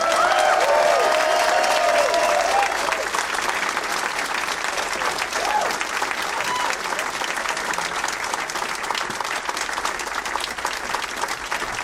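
Audience applause welcomes guests onto the stage at a show in Sacramento. The clapping is loud and dense and stays steady and sustained throughout.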